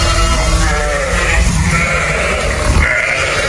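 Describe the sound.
Purebred Karacabey merino sheep bleat on a family-run farm in Manyas, Balıkesir, with many loud, overlapping calls forming a continuous chorus.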